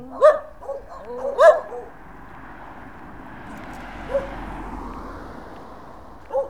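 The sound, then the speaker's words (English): Guard dogs bark in a few sharp, irregularly spaced bursts over a low, steady background hum, with longer gaps between the later barks. “And there's some dogs here.”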